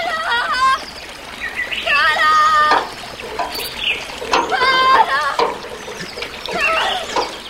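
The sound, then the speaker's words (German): Clear, cold spring water bubbles and trickles over a sandy bed beneath a mossy rock mound, a soft running wash heard under a man's voice speaking throughout. “bis er schließlich vor einem moosbewachsenen Felshügel stand, unter dem das Wasser klar und kalt über das sonnenfarbene Sandbett sprudelte.”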